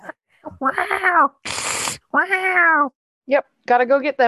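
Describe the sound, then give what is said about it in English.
A voice imitates scared cats, making several drawn-out, wavering meows with a harsh, breathy hiss in between. The sounds are loud and heard alone, separated by short silences. “Theo realizes it's the sound of scared cats. Oh, no. I'm going to get my meowing and hissing.”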